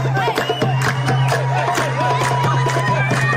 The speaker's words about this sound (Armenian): Նորությունից հետո Լիբանանում գիշերվանից տոնախմբություն է